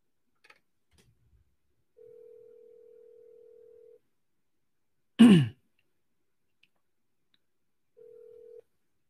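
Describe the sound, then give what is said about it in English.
Ringback tone of an outgoing phone call going unanswered: a long steady tone, a pause, a sharp throat clear, then a shorter burst of the same tone before it stops. “The person you have dialed. Nope. Seller's not picking up.”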